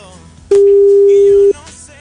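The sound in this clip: A phone ringback tone for an outgoing call that goes unanswered: one steady, even beep lasting about a second, rising clearly above low background noise and then stopping.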